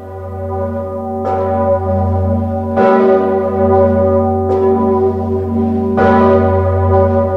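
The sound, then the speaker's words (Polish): The great Sigismund bell of Wawel Cathedral in Kraków tolls at noon, swung by bell-ringers pulling ropes. Several deep, slow, loud strikes ring out at regular intervals over a sustained, rich humming resonance. “A w południe właśnie z Wawelu zabrzmiał słynny dzwon Zygmunt. W ten sposób wawelscy dzwonnicy oddali hołd papieżowi, pociągając za sznury na jego cześć.”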